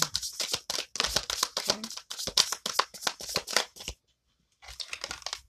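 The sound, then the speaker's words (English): Tarot cards are shuffled in rapid, crisp riffling bursts, then a short silence, then a little more shuffling as cards are drawn from the deck. “I'm gonna go back once I pull the cards, and I'm gonna pull something for the Lovers card so I will get some kind of clarification on it. Give me two more.”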